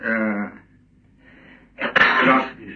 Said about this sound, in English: I thought he was sneezing. Yes, I was. I'm sorry.